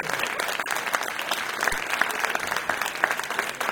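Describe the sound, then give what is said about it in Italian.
Audience applause at Teatro Thalia, a dense, steady patter of many hands clapping that continues without a break. “siamo in diretta dal Teatro Thalia, e questo è il saluto del pubblico del Teatro Thalia.”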